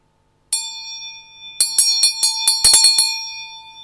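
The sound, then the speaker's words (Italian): A bell rings out with a single bright strike that hangs in a sustained, shimmering tone. It is followed by a quick, uneven run of many further strikes, each adding a sharp metallic attack over the lingering ring. “Tutti direbbero è una campana. Anch'io, sono d'accordo. Questo oggetto è una campana”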